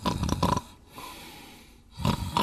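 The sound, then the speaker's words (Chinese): A voice imitates the snoring of sleeping guards: two rough, raspy snores with a quieter, breathy exhale between them. “都打起呼噜来了。”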